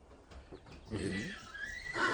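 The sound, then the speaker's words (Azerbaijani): An Iranian horse neighs. After a quiet start with faint rustling, a loud, high, shrill whinny begins partway through and continues, harmonic and wavering, to the end. “Bu İran atıdır.”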